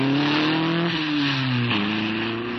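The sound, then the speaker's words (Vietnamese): Car engine revving as a waiting driver pulls away in a hurry. The steady mid-pitched drone holds loud throughout and drops abruptly in pitch twice, like gear changes. “Xe chờ kìa. Đi cháu, đi mà. Tài xế, giọt lẹ đi.”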